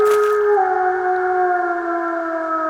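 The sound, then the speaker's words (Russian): Feral dogs howl together in long, sustained wails whose overlapping tones hold steady at a loud level. One pitch dips slightly early on, and no voices are heard. “Ну, ладно, будем считать, что собаки. Одичавшие.”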